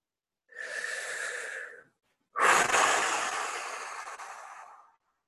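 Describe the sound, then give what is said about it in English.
Deep, slow breathing during a guided meditation: one long airy inhale, a short pause, then a fuller exhale that starts strong and slowly fades out. “continuing to breathe.”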